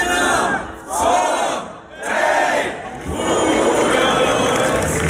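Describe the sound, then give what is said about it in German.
A festival crowd in the town of Bad Hersfeld cheers and shouts loudly in several surging waves, with brief dips between them. “Typisches Geräusch ab heute in Bad Hersfeld. Ja, es ist wieder die Zeit, es ist Lulusfest.”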